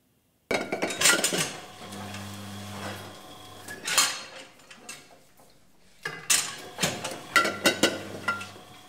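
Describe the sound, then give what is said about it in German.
Glass wine bottles clinking at a vineyard estate on an old manor farm, bright clinks and rattles in two busy bursts split by a short lull, over a low steady hum. “Und dann am Ende des Tages, wenn es dann hier klirrt, ist es ein gutes Zeichen. Das heißt, man hat irgendwas Vernünftiges in die Flasche gebracht.”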